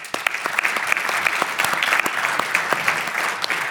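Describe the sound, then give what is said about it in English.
Audience applause welcoming a guest onto a software talk show: steady, dense clapping from many hands, loud and continuous for a few seconds, with no voices over it. “Welcome, Christine. Give her a hand.”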